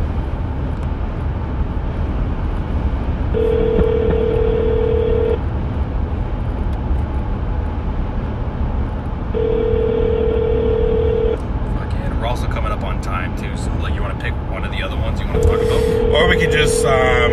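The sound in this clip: Ringback tone of an outgoing phone call going unanswered: three steady two-second tones separated by longer pauses, heard over constant background noise.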